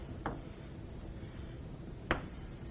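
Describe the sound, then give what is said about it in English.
A marker draws a circle on a board, giving two brief faint squeaky strokes well apart, the second slightly louder, over a soft steady hiss. “So we'll just draw it as a circle.”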